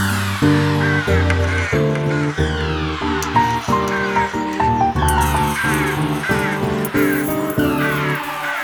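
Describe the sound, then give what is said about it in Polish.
A black raven caws, with many harsh, harmonic caws repeating in a fairly even rhythm throughout, loud and steady with short gaps between calls. “Za oknem na parapecie czarny kruk, nie może odlecieć.”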